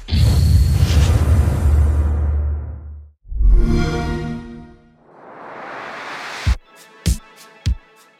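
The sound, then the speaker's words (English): The Xbox One X console startup sound opens with a deep whooshing rumble that cuts off, then a swelling tonal sweep, then a hissing swell. It ends with three sharp, bright hits. “That was the Xbox One X startup sound.”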